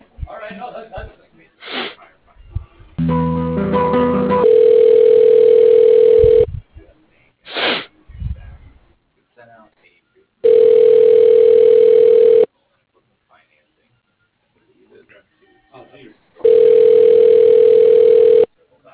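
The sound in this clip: Telephone ringback tones play while a call is being transferred: three steady single-pitch rings of about two seconds each, separated by silent gaps. A voice and some breathy sounds come first.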